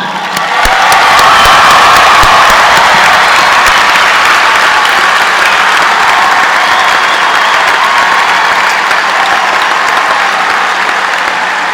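Loud, sustained applause from a commencement audience honoring the mothers present, with a dense, even roar of clapping and some cheering that runs unbroken for about twelve seconds.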